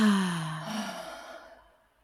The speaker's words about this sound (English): we'll take one inhale through the nose. Hold it at the top. And then we're going to give it an exhale.